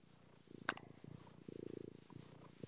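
A pet cat purrs softly while being stroked, a faint, continuous low rumble with a steady pulsing rhythm and no other sounds over it.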